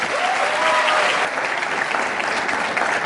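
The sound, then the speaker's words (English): An audience at the LSE applauds to welcome Professor John Mearsheimer, with dense, steady clapping that stays loud throughout. “please join me in giving Professor John Mearsheimer a warm LSE welcome.”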